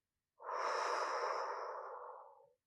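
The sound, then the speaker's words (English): A single deep breath, heard as one long, airy exhale that swells quickly, holds for about two seconds and slowly fades, alone without speech. “Consciously, deeply breathe in and out again.”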